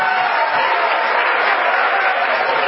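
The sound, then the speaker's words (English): A church audience clapping their hands during a Pentecost service. The clapping is dense, loud and unbroken and holds a steady level throughout. “Come on, anybody can clap their hands, but not just anybody can praise Him.”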